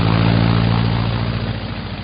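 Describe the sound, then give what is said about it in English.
A propeller aircraft engine drones as the plane launches out of a tunnel back into the air: a steady, loud, low roar that slowly fades. “He climbed back into his cockpit, turned around, and launched from the tunnel to return to the air.”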